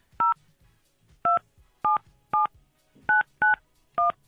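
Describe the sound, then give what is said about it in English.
Seven touch-tone keypad beeps as a telephone number is dialed to call someone's mother. The steady, loud two-tone beeps come in a fairly even rhythm with short silent gaps, with no talk. “All right, let's dial up your mom. Hopefully she is going to answer.”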